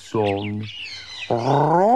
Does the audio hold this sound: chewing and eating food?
no